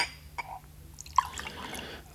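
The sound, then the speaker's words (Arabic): Tea poured into a cup, heard as a brief, soft trickle of light liquid drips and small splashes with faint glassy tinkles, quiet and unhurried. “صوت صب الشاي في الفنجان يهدئ الأعصاب للغاية.”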